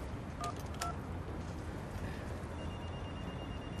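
Telephone keypad tones from dialing a phone call: two short, clear beeps near the start, then fainter tones, all quiet over a low background hiss.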